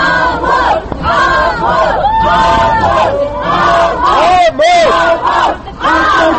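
A crowd holding placards in a courthouse yard shouts at a defendant, with loud, rhythmic, chant-like shouting repeated over and over and short breaks between bursts.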